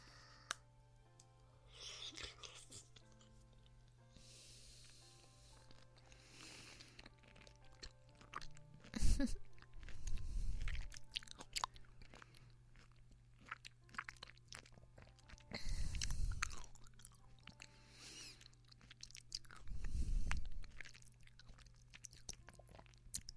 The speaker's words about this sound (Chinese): 那这一口啊，我吃掉，不给你吃了。